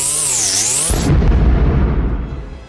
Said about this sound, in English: Foe Bambaustica used Wild Vibration.